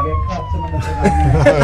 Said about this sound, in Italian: La sirena.